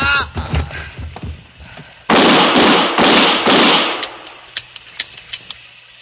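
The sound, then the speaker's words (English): Gunshots ring out in a dramatized confrontation. A brief voice comes first, then several loud, heavy blasts crowd together, followed by a few sharper, quieter cracks spaced apart. “Give me that gun. What a sound.”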